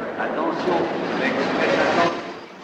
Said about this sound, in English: A train pulls in.